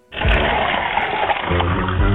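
Water poured into a soap container makes a loud, steady rushing gush that starts abruptly and runs on without a break.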